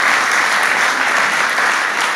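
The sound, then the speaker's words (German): An audience applauds during a German-language church service. The clapping is dense, loud and sustained, a continuous wash of many hands with no voices. “Und ich finde an dieser Stelle, dass wir Applaus dafür geben können, dass Gott heute noch diese Art von Wunder tut.”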